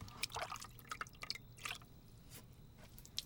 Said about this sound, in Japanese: 髪の毛にお湯を流すだけでも気持ちいいですよね。